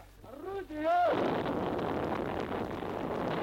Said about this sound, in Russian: Огонь! Первое слово! Первое орудие! Это происходит в 1943 году на одной из батарей в момент подготовки к прорыву блокады.